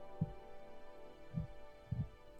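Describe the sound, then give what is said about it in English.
A human heartbeat: a few soft, low thumps at a slow, uneven pace, the last landing as a quick double beat, faint over a quiet steady hum. “That light pulses to the rhythm of the sound that you have been following. And now, that sound is recognizable. It is your heartbeat.”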